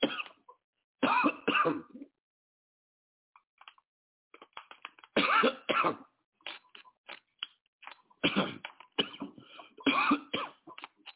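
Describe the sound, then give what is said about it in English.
A few bursts of coughing from someone with a dry, irritated throat after something caught in it. The coughs come as short, harsh clusters separated by pauses, and there is no speech. “Don't worry, y'all. I ain't sick. Something caught my throat.”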